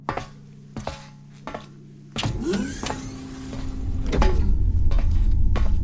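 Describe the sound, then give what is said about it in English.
Mechanical clunks and a motorized whir as the forward observation deck shields of a spaceship open, a few sharp knocks giving way to a continuous grinding hum that swells into a heavier rumble toward the end. “Prepare the forward observation deck. Aye, aye, my lord. Forward deck shields opening.”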